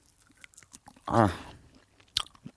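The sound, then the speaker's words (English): Someone bites and chews a salty, surprisingly moist reindeer snack: a few faint crunches, then a louder, muffled chewing burst, and a sharp crisp bite near the end, with no talk. “I'm currently biting the reindeer snack.”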